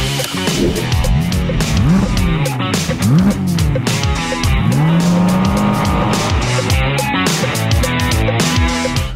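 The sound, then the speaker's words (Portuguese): A Porsche 718 Cayman GT4 RS race car drives hard on a race track. Its engine roars loudly and steadily, the revs rising and falling again and again through gear changes. “agora chega de conversa e vamos conhecer o GT4 RS em pista de corrida. Vamos lá?”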